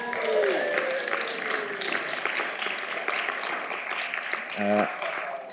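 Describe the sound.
Audience applauds and cheers as two adult volunteers come up, a soft, steady clatter of many hands clapping for the whole stretch.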